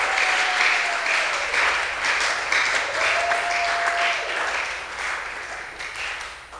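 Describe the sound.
A church audience applauds in a dense, continuous wash of clapping that holds steady and then fades slightly toward the end.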